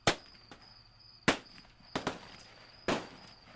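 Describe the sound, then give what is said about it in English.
Gunshots fired from a military watchtower at a wood line: several sharp cracks at irregular intervals, some loud and some fainter, with quiet gaps between them. “Whoever was in the tower fired at the wood line.”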